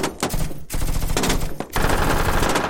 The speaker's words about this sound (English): A rifle snarled, then another and another.